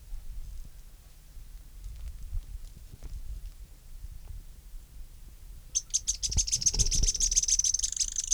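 A Synallaxis stictothorax spinetail gives sharp notes: after a quiet stretch, a rapid run of many high, clipped calls repeats in a steady rhythm, fairly loud against faint background noise.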